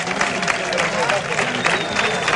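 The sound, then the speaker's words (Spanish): Crowd applause at a bullfight, a dense, steady wash of clapping that stays loud throughout, with a commentator talking over it. “Se aplaude con fuerza a Miguel Tendero.”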